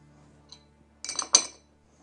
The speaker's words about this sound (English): Now like I said, it's been dressed before, so we just have to mix everything up from the bottom.